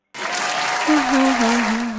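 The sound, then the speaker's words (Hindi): Applause for a singer on a Hindi song request show. It breaks out suddenly and stays loud and dense to the end, with a steady wavering tone running under the later clapping. “पहले तालियां तो बजाने दें.”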